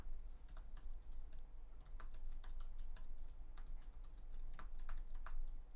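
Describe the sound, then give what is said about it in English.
Quick, light clicks and taps as a note is written down, arriving in short irregular runs over a low, steady hum. “I just got a good idea for a video here. Let me just write this down real quick.”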